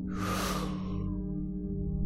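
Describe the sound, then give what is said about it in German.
A single deep inhale through the nose during a breathing exercise: one long, airy rush of breath lasting about a second, then fading over a steady low hum. “Atmen tief durch die Nase ein und durch den Mund wieder aus. Einatmen”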